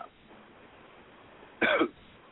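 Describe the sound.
A man clears his throat once in a short, rough burst that rises out of near silence.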